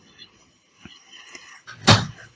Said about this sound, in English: I just had to close my door.